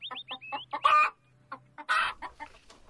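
A farm hen clucks in short bursts: a run of quick high chirps, then two louder, harsh squawks separated by quiet pauses.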